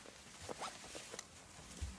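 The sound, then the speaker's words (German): A zipper on clothing is pulled closed, producing a faint, brief rasping run of small ticking scrapes. “Kannst du nicht noch einen Reißverschluss zumachen?”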